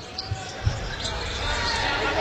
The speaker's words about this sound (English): Trying to dribble. If you're going to dribble in that post, you better make a power move, power dribble to the basket.